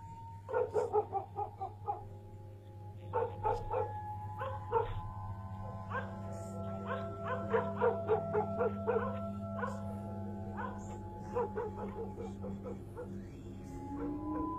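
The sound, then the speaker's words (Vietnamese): Village dogs barking wildly: many overlapping barks, yips and whimpers in rapid, uneven bursts that carry on throughout, over a steady low hum. “tiếng chó ở trong làng sủa lên nhấm nha nhấm nhẳng tán loạn cả lên.”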